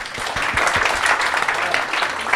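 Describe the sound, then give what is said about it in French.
Audience applause at a public science talk, a dense and steady wash of clapping that holds at an even level for the whole stretch. “Ça s'applaudit, je crois.”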